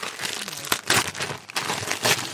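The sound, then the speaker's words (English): Gift wrapping paper crinkles and tears as Christmas presents are opened, coming in several sharp bursts of rustling. “So everyone's got a gift. Unwrap away, and then we'll find out what you've all got.”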